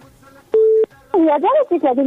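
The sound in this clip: A single push-button telephone tone sounds as a number is dialed, a clean, steady beep lasting about a third of a second, followed by a person talking.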